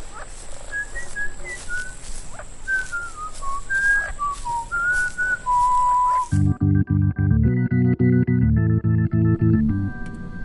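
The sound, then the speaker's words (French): A mysterious melodic whistling voice comes from inside an island. Short warbling phrases with gliding notes run for about six seconds, then a rhythmic pattern of buzzy electronic pulsing tones follows. “Hey, vous entendez cette voix ? Oui, c'est sifflement.”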